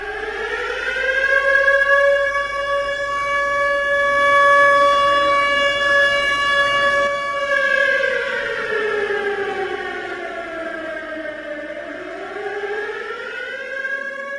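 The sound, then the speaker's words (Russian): An air-raid warning siren wails continuously and loudly, holding a steady tone before sinking and rising again in slow, sweeping waves, with no other sound over it. “Она уже слышала этот звук много раз. В фильмах по гражданской обороне, тех непонятных, но страшно пугающих. Это сирена. Сирена, предупреждающая о том, что... «Объявляется воздушная тревога!»”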